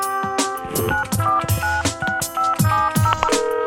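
A telephone number is keyed in quickly to call a restaurant and reserve a table, making a brisk run of many short, clear dialing tones at different pitches.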